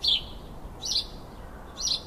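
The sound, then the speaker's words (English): House sparrows give three high, bright chirps spaced about a second apart, each short and clear over faint background hiss. “They're called house sparrows because of their close association with man.”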